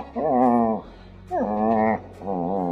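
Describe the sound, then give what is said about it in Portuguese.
A dog whimpers in three drawn-out, wavering whines separated by short pauses. The cries are fairly loud and stand alone without talk. “O cachorro sentimental.”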